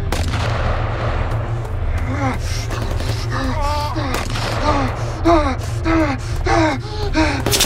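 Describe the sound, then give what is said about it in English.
Gunfire laid down as cover fire during a firefight, with sharp shots cracking through a dense, noisy mix while agitated voices shout and gasp over it. “I'll provide cover fire.”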